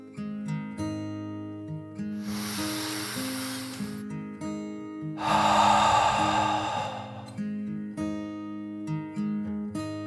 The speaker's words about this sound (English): Then she took another deep dragon breath, in and out.